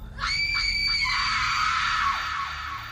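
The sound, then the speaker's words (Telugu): Loud screaming rings out from a room in a house at midnight. A shrill cry wavers in a few quick pulses, then stretches into a long ragged scream that fades, over a low rumbling background. “గదిలో నుండి పెద్దగా అరుపులు వినిపించాయి”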